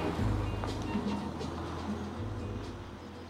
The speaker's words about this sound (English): He is picking flowers on the roadside and looks up as a pickup truck approaches.